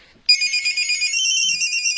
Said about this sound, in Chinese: 对不起，接个电话。